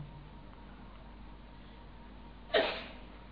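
A single sneeze bursts out near the end, sharp and fairly loud against a quiet background hiss, then tails off quickly.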